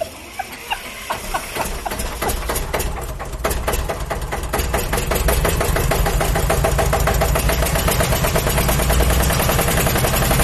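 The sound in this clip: Engine of a bulletproof car running with a rapid, rhythmic pulsing beat, quieter and uneven over the first few seconds, then swelling to a loud, steady drone for the rest.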